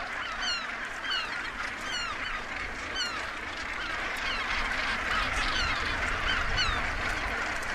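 Northern gannets call at a crowded nesting colony on bare rock. Many harsh, rasping cackles overlap in a constant, fairly quiet chorus, with repeated short calls rising above a steady rushing background throughout.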